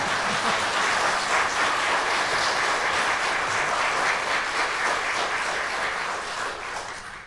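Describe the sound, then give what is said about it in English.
Applause from a church audience during a sermon, a loud, dense and steady clapping that carries on for several seconds before easing off slightly at the end. “him another round of applause.”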